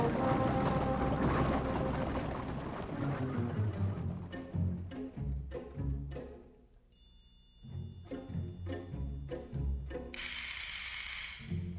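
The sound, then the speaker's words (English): Horse-drawn chariots riding off, with rhythmic clopping hooves and rattling, clacking mechanical noises, fairly faint and running for many beats. “Prepare the chariots! We ride at once to Jezreel.”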